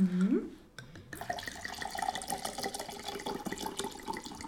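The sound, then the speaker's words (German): Wine poured into squeezed lemon and orange juice makes a faint, continuous trickling and splashing that lasts a few seconds. “Die ausgepresste Zitrone und die ausgepresste Orange mischen wir jetzt mit 100 ml Wein.”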